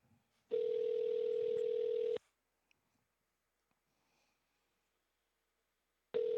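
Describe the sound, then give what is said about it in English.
Telephone tone as a phone call is placed: a steady, single-pitched tone holds for under two seconds, then stops, and after a long silence broken by a few faint clicks, the same tone starts again. “made me think why don't we just make a quick phone call to his booking agency?”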